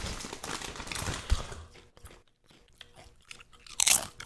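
Crunching and chewing of a spicy tortilla chip: several crisp, irregular bites and munching sounds, with a sharp crackle near the end.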